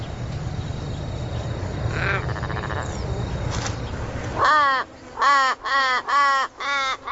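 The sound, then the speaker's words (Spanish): Crows call in Australia by a road, scavenging carrion. Several loud, harsh caws come in quick succession after a stretch of steady rumbling noise. “En Australia no hay buitres, de modo que cuervos y águilas audaces compiten por el trabajo de limpieza.”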